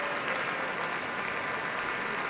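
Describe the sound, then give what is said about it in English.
A concert hall audience gives the Boston Symphony a standing ovation, with dense, sustained applause and no breaks, a steady roar of many hands clapping at once. “All the musicians of the Boston Symphony now standing as Andres Nelsons and Erin Morley are holding hands, bowing to the audience. They themselves are also on their feet for a standing ovation.”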